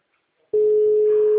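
A telephone ringing tone sounds while calling someone: one steady mid-pitched tone starts after a brief silence and holds unbroken to the end.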